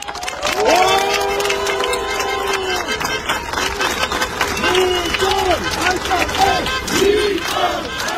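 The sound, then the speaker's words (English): Crowds of supporters chant and cheer loudly as Armenia's Prime Minister arrives at his campaign offices after an election. Rhythmic shouted chants rise and repeat over constant crowd roar, with some clapping mixed in. “The Prime Minister was cheered by his supporters as he arrived at his campaign offices shortly before declaring victory.”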